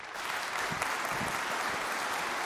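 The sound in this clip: Audience applause welcomes a preacher and his translator to the stage at a church service, as steady, dense clapping that holds at an even level throughout.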